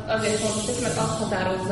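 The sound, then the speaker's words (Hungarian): Hissing from a jar of water kefir in its second fermentation, a steady airy fizz with tonal whistling streaks, moderately loud and continuous for under two seconds. “Közben kaptunk egy üveget, amiben sziszeg egy másoderjesztés.”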